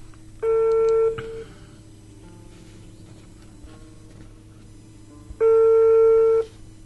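Ringback tones of an outgoing telephone call waiting to be answered: two long, steady electronic rings, loud and alone, separated by several seconds of quiet line hiss.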